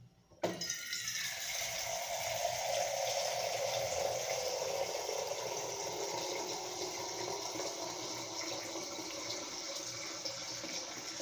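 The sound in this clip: Filtered water rushes into a container from a tap, starting abruptly after a short silence and then pouring in a steady, even hiss that keeps going without a break.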